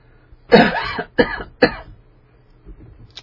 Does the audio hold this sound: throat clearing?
yes